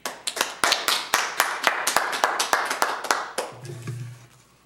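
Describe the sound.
Sparse clapping from a small audience welcoming a speaker: many distinct, sharp individual claps at a brisk, fairly even pace, tapering off after about four seconds.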